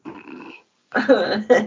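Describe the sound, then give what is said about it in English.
A dog growls low in two rough bursts with a short silent gap between them. The second burst is louder and broken into shorter pulses. “The most interesting dog in the world.”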